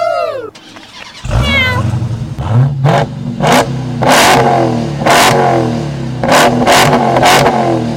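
Car engine cranks briefly, catches and settles into a rough idle, then gives a series of sharp throttle revs that roar up and drop back, loud and repeated at uneven intervals.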